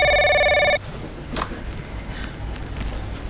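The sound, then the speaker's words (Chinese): A telephone rings in a single loud, bright, tonal burst that cuts off abruptly under a second in, leaving quiet background noise with a faint click. “哎，对不起，我先接个电话。”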